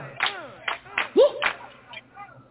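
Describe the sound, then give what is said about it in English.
Hands clap along to an upbeat song, with a few sharp, roughly even claps cutting through sung vocals and music. “Everybody clap it up like,”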